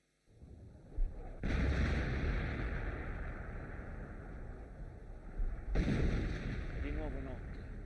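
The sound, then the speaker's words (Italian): Artillery bombardment with explosions on the Hermada front: a continuous heavy roar and rumble, broken by a sharp blast early on and a few louder booming surges, with no voices heard. “Dura da 24 ore ininterrottamente il bombardamento.”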